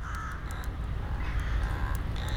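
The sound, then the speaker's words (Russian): Whistle-like calls of a crow imitating a football referee's whistle, recorded in the town of Peresvet: a few short, bright tonal blasts over a steady low rumble. “Точно так же за свою принял я ворону, которую мне посчастливилось записать в городе Пересвет. Она настолько правдоподобно изображала свисток футбольного судьи,”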